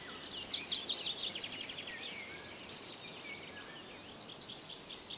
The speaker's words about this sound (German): Der Wendehals. Er ist auf der Suche nach Ameisen, die es hier in Hülle und Fülle gibt.